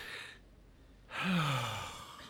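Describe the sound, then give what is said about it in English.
A deep breath drawn in, a brief pause, then a long, slow exhale that carries a soft voiced sigh falling in pitch, heard alone with no talk. “please just take a deep breath and then exhale. Let's do it together.”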